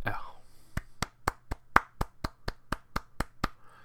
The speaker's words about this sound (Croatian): bravo, jedan aplauz za, za, za matematiku, ovaj, ovu komplikovanu matematiku što ide na RTS-u 3.